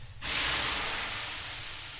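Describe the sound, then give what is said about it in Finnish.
Steam hisses loudly as water is thrown onto hot sauna stones, rising suddenly after a brief quiet moment into a broad, dense hiss that fades slowly over about two seconds. “Lyödäänpäs vähän lisää löylyä, eikö niin?”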